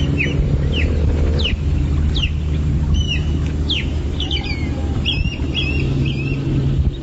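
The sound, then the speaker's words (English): Osprey calls: a run of many short, high chirping whistles, some rising and some falling, repeated at an uneven pace over a steady low hum. “The osprey sounds like this.”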